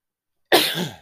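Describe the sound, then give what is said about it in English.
A single sharp sneeze from a person in the middle of a sneezing fit bursts out of silence, loud and breathy, then trails off within about half a second. “Hit with a sneezing fit.”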